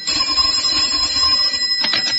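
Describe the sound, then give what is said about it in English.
A telephone rings with a continuous bright metallic bell trill, held steady and loud from start to finish. “watching the clock, waiting for the phone to ring. Waiting for the phone to”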